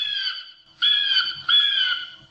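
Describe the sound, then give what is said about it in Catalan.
Screeching calls from two golden eagles: three loud, high, harsh cries, each held for over half a second with short gaps between, with no voices. “Són dues àguiles daurades!”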